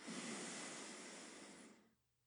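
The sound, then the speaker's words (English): A deep inhale into the rib cage during a breathing exercise: a steady, airy breath drawn in for just under two seconds, then silence. “Inhale deep and really expand the rib cage.”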